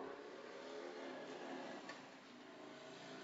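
A 1967 Harley-Davidson X600 Type 2 motorcycle, one of 14 made, rides down a street with a faint, steady engine rumble that holds throughout, briefly fading slightly before settling again.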